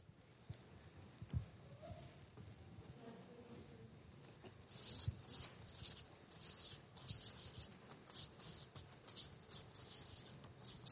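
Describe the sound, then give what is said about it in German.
Handwritten notes: a pen scratches faintly across paper in many short, irregular strokes, a quiet, dry, scratchy patter that picks up after a few seconds of near silence. “Ich schreibe das mal kurz mit.”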